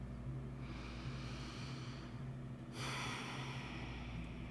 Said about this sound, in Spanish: mientras seguimos inhalando y exhalando, le vamos a pedir al cuerpo que baje barreras.